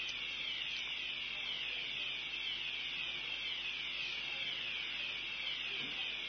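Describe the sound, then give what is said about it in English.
Fire alarm sounding without pause: a shrill, loud electronic tone that repeats a quick sweeping pattern throughout, with no voices over it. “fire alarm.”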